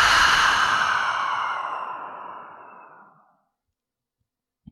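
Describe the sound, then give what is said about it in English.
A deep breath released out through the mouth during a breathing exercise. It is one long, airy exhalation that starts full and fades out over about three seconds, with no voice and a faint click near the end. “take a big full breath in through the nose, out through the mouth”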